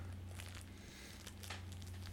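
Tootsie Pop wrapper crinkling, a soft, steady run of crackly rustles that lasts throughout over a low, constant hum.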